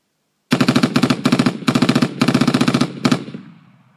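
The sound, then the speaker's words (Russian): Gauss cannon fire from a vehicle turret against a tank in a sci-fi battle: a string of rapid, loud, clattering bursts in quick succession, the last shots trailing off into a fading tail. “Стрелок за турелью открыл огонь из гаусс-орудия.”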